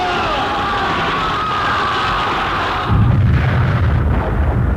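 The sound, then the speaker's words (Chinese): Gunfire volley in a dramatized battle between guerrilla fighters and bandit troops: a loud, continuous, dense roar of shots and blasts with no clear individual reports, growing heavier toward the end. “随着游击队的一阵枪声，匪军大乱。”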